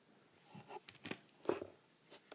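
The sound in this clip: A knife cuts through food to divide it into quarters, making several soft, brief crunching strokes spaced unevenly. The strokes are faint and there is no talk.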